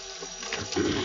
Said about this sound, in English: Now, while I have the water running